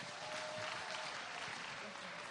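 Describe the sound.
A morning audience applauds to welcome a speaker to the stage, the clapping a faint, steady and continuous patter.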